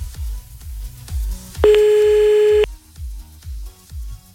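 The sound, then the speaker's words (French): A telephone call is placed late at night: a run of evenly spaced low electronic pulses, interrupted midway by a single sustained tone lasting about a second, with no talking. “Allez, c'est parti, on y va, on appelle à minuit 49, un peu à la bourre, certes.”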